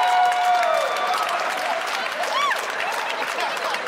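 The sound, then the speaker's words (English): A comedy show audience cheers and applauds: thick clapping runs throughout, while whoops and cheers with swooping pitch rise above it, loudest at the start and easing slightly toward the end. “Well, I'm glad a lot of you are cheering. Some of you aren't even moving or smiling.”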